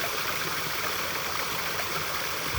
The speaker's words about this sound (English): And listen to the sound of this beautiful stream.